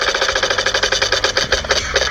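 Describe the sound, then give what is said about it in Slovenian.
A Valentine's prize wheel, the wheel of love, spins with a rapid, even run of loud rattling clicks that continues throughout. “Zdaj pa bomo še potrdili, čakaj, da zavrtimo Valentinovo kolo ljubezni”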